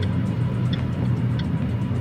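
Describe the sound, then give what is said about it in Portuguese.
Traffic rumble inside a car stuck on a jammed airport avenue, a steady low engine drone with a couple of faint ticks and no talking. “Avenida do Aeroporto, no sentido Papicu, já com o trânsito travado. Gravei esse vídeo aí com o aparelho fixado no suporte do meu veículo.”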